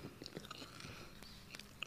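Chewing of a root beer float flavored Peeps marshmallow candy, faint and soft, with a few small wet, crunchy clicks and no talk.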